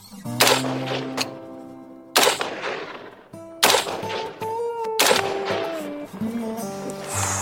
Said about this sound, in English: passed me the AR-15 and taught me the ins and outs of the rifle. Then it was time to shoot.